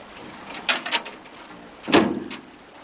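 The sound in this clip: A pickup truck door shut by the driver: a few short clicks and rattles, then a single heavier thud, all fairly faint.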